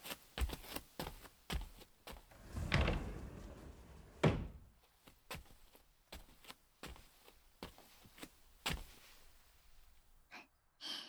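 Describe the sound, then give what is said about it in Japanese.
A Japanese shoji paper sliding door being closed, with soft sliding swishes and a muted thump among lighter knocks and creaks, fairly quiet, with no talking. “障子閉めてくるね。”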